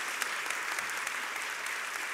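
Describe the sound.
Applause from a church audience at Abundant Life Church welcoming a young guest to the stage: dense, even clapping that holds steady throughout, with scattered sharper claps standing out.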